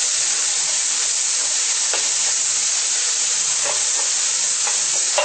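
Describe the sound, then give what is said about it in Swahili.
Food fries slowly in a cooking pot with a loud, unbroken sizzling hiss, broken by a few faint stirring scrapes. “Kukoronga pole pole upate ule utamu wake, na pia kuyafanya ipate ladha kidogo.”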